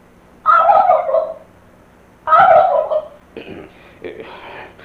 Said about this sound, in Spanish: ¿y ese sonido tan raro? Oh. En mala hora metimos ese jolote ahí